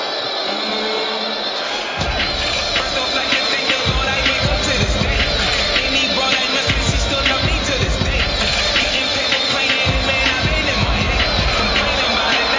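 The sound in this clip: A boxing arena crowd roars loudly before Deontay Wilder's ring walk, a dense and continuous din of cheering and babble. A commentator talks over the noise.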